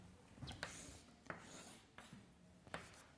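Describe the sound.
A pencil sketches a coordinate plane and parallel lines by hand, a few faint, short scratching strokes separated by brief pauses.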